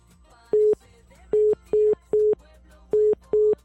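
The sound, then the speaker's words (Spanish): Short, mid-pitched telephone busy tone after a dropped call: six clipped beeps in a fairly regular pulse with one slightly longer gap, clear over a faint, quiet background. “Bien, se cortó la llamada.”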